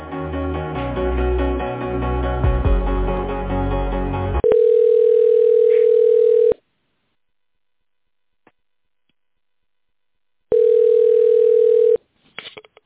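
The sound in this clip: Telephone line tone during a call transfer at a medical center. A few seconds of dense tonal sound give way to a loud, steady tone that stops, leaves several seconds of silence, and then returns for a second stretch.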